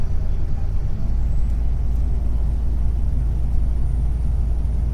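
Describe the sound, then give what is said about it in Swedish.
A low, steady rumble of an engine and road noise fills the cabin while riding in a vehicle heading to Slussen, a constant drone with no clear breaks or voices. “vandra med Henrik där jag sitter helt still och befinner mig i ett fordon framåt”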